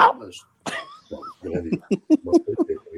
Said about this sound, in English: Okay. I cough like this.